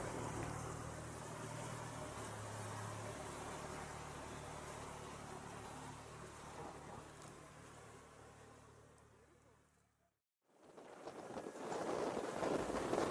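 A small boat speeds up at sea, its engine roar blending with wind rushing across the microphone. The steady, broad noise cuts out abruptly near the end, then returns at full strength.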